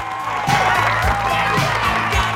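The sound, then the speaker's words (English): Crowd cheering wildly after a football win, with a loud, continuous roar of shouts and whoops that holds steady and dense for the whole stretch. “as the crowd go wild.”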